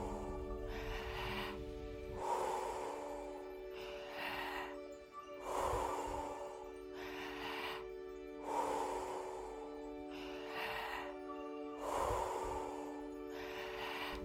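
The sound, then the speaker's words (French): Deep rhythmic breathing during guided Wim Hof breathwork repeats over several cycles, full inhales flowing into forceful exhales with no pause. The breathing is soft and sits over a sustained musical drone. “et expirez. Pas de pause entre l'inspiration et l'expiration.”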